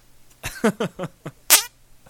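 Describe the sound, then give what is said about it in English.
Farting noises made with the hands come in six short, squelchy bursts at an uneven pace, each a sputtering blat, with the final burst loudest and most drawn out. “I can make farting noises with my hands.”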